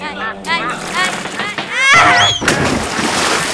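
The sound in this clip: Water sloshes and splashes around a small rowboat as people board it on a pond with ducks in a park in Sabadell, while people talk over the rocking.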